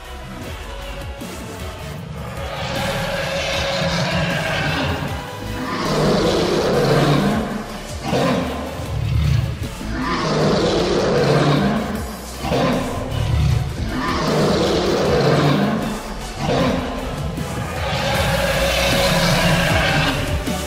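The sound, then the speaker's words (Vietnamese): A dragon roars fiercely: several long, loud, rough roars swell and fade one after another over a continuous rumbling background. “Đầu của chân long vươn thẳng lên mà gầm thét dữ dội, thể hiện uy nghiêm.”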